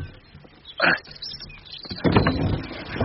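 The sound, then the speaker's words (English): Opening a window catch from inside: a short sharp knock comes first, then after a pause a longer rattling scrape as the catch is worked free. “Now, if I reach inside, I can open the window catch.”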